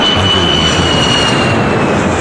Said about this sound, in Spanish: El que despega es el Boeing C-30 del S5 Radio Rivadavia.